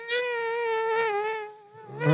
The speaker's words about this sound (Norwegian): Den bzzz-lyden kommer fra hvor raskt vingene vibrerer. Og mygg har litt av det samme.